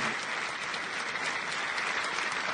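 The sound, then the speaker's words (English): Applause from an audience for a talented lounge performer, a steady, dense patter of many hands clapping without a break. “Let's hear a nice big hand for this talented man.”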